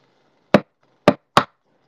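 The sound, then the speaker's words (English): An egg being cracked against a bowl: three sharp, dry taps, the last two close together, with quiet in between. “In the meantime, I will crack my egg”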